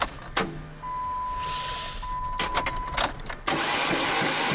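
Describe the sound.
An engine is cranked: a steady whine, then several sputtering bursts, before it catches and settles into a loud, continuous running roar.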